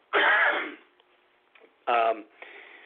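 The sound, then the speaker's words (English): A cough or throat-clearing, heard as two loud, rough, breathy bursts: the first lasts over half a second, and the second is shorter and comes after a quiet gap with faint noises. “I apologize for having to cough again”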